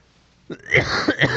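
Throat clearing and coughing from someone with sprouts stuck in their throat while eating noodles in broth: a few short, rough, voiced bursts in quick succession, fairly loud.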